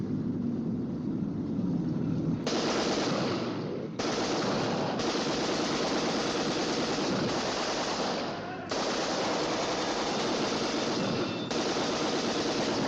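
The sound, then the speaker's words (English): Soldiers who have run from army jeeps fire toward an air force base: loud, dense, continuous automatic gunfire goes on almost without pause, dropping out only in a few very short gaps. “Soldiers run out of the army jeeps and shoot toward the Air Force base.”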